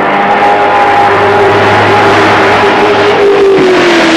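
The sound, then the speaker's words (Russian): Loud, steady engine roar of a race car speeding along a track, a sustained droning tone that holds level and then dips slightly in pitch toward the end. “Машина несется по трассе.”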